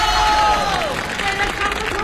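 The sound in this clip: Dense, steady applause from an audience at a stage show, with cheering voices mixed into the clapping throughout the short stretch.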